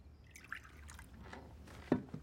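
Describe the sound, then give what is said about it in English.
Perry is poured from a small stoneware carafe in a faint, soft liquid trickle, with a brief, slightly louder drip-like splash near the end. “pours from a small stoneware carafe. Alcohol? Perry.”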